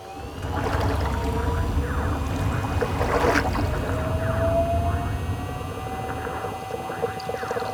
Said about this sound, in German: Jetzt noch die Schiffsschrauben einschalten. Jetzt sind wir bereit zum Tauchen.